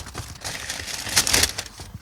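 A small paper note is unfolded with a crinkling, papery rustle. The crackle runs throughout, swells into a louder burst shortly past the middle, then eases off again.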